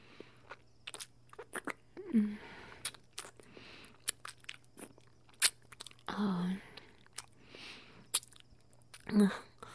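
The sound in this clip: Salty food is bitten and chewed, with many short crisp crunches and smacks at irregular intervals and a few longer, louder voiced murmurs mixed in over a faint steady hum.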